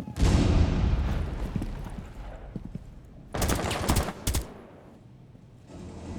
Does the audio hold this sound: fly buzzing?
no